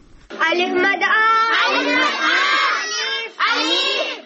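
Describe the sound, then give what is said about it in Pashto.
Many children's voices, from out-of-school children gathered at an informal village school near Peshawar, shout together in a loud, nearly continuous chorus that breaks briefly before resuming. “ریپورت لري چې د ماشومان په غږ پیلېږي”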